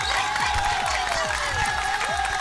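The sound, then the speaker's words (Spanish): Audience applause breaks out in a dense wash of clapping, with crowd noise and some voices mixed in throughout. “Un aplausito, por favor.”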